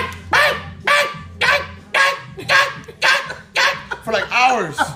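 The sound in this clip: A person's voice imitates a small female chihuahua barking, giving many quick, shrill, yappy barks in a steady rhythm.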